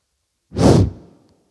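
A single forceful breath out, given as a demonstration during a sermon, makes a loud rushing whoosh that swells quickly, holds briefly and fades away within about a second, heard alone without talk.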